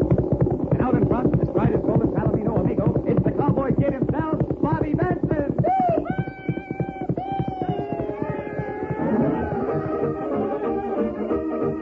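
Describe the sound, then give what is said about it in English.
Horses galloping as riders approach fast in a modern-West radio drama: a rapid, steady clip-clop of hoofbeats runs throughout, joined by sustained tonal sounds in the second half. “Here they come. They're riding fast and they're riding hard.”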